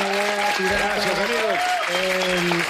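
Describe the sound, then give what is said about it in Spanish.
A live audience applauds a band at a comedy show, steady clapping running underneath a speaking voice that carries clearly on top. “Gracias a la banda, un aplauso para Lito”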